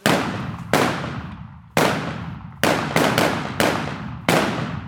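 Single gunshots are fired in rapid succession during a military exercise. Several sharp, loud cracks come at uneven intervals, some closely bunched, and each is followed by a long fading tail.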